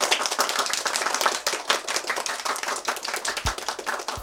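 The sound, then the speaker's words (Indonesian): Many young children clap their hands together after a game in an early-childhood lesson. The clapping is fast, dense and continuous for the whole clip, with no talking. “Tepuk tangan semuanya!”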